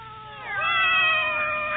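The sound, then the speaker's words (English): A cat meowing in one drawn-out, plaintive call, loud and clear, with its pitch rising toward the end. “How many cats do you have here, Miss? 8, actually.”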